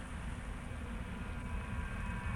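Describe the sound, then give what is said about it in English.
A subway train in a video game makes a faint, low, continuous rumble that holds steady with no distinct events. “It's a subway train.”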